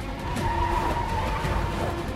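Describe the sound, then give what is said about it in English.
Tires squeal as an FBI car spins its wheels and speeds off beneath an overpass. A sustained, tonal screech rides over engine roar at a constant loud level. “Danny and Ray speed away in one of the FBI cars, spinning the tires and shooting off beneath the overpass.”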